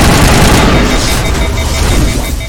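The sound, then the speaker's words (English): An overloaded gun in a space video game unleashes a loud, dense, roaring burst of crackling noise that holds strong and continuous across the whole moment. “Oh, you hear that sound? I overloaded my gun. That's my overload sound.”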